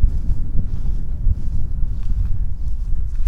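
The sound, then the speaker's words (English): Wind blowing outdoors at a park on a mild day, a continuous low rumbling buffet across the microphone with no pauses and no voices. “But we're not out here for BMX or softball. I guess we're out here for the wind.”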